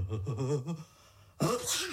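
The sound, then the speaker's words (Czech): A person sneezes: a voiced, wavering build-up, a short pause, then a sudden hissing burst that trails into a voiced tail. “Vlastně, kdo to kýchl? Bylo to tady nebo vedle?”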